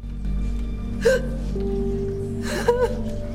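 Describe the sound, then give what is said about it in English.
A woman's sharp intake of breath and sobbing in a courtroom after a guilty verdict in a murder trial: two brief, catching, hiccup-like gasps over a steady tonal background. “takes a sharp intake of breath and sobs”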